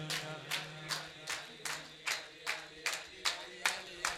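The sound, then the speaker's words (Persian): Fast rhythmic group clapping in unison at a religious chanting gathering, about a dozen crisp claps on a steady quick beat, with faint voices underneath. “خیلی تند دست میزنید خدا وکیل.”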